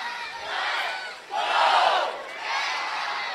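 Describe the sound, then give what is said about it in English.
More than 4,000 baseball fans cheer loudly late in a Fargo-Moorhead RedHawks home game. The roar comes in three swelling waves, and the middle wave is the loudest. “I love it when these fans get loud. 4,000 sounds like about 14 or 40,000 at times.”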